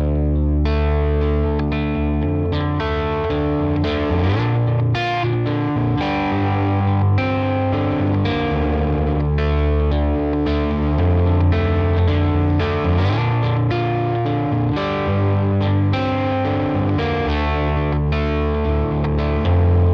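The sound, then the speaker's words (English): Electric guitar through a Neural DSP amp simulator with effects gives a distorted, chorus-tinged tone of steady picked notes and chords over a sustained low end, playing continuously with no talk. “But here's Neural DSP set up to do a similar thing.”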